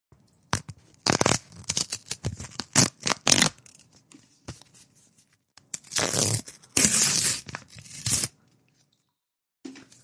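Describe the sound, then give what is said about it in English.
Something being torn by hand: a rapid series of short, rasping rips, then after a pause two longer, louder tearing strokes, with a faint final scrape near the end and no talk. “I gotta tear it a little bit here.”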